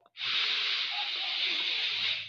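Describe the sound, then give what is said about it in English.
A gentle, deep inhale during a guided breathing exercise for calming anxiety: one steady, airy breath in lasting about two seconds, fairly loud and smooth, with no talking over it. “So we need to take a few deep breaths so we can come back to where we are right now.”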